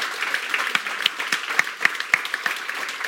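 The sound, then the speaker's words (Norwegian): An audience applauds at a book event, many hands clapping in a steady, moderately loud patter with a few sharper claps standing out. “Men så en applaus. Kanskje for Helga.”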